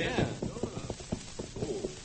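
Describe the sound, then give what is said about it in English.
A trained horse's hooves clip-clop in a quick, steady rhythm of many muffled thuds while a voice talks over them. “I never thought a horse could be trained without getting the tarnation beat out of him.”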